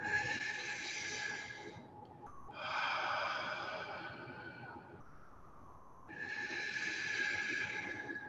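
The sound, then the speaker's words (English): Slow, deep breathing in and out during a guided meditation, with three long airy, hissing breaths separated by short pauses, soft and steady. “And breathe out. Breathe in. And just follow me now with the breath.”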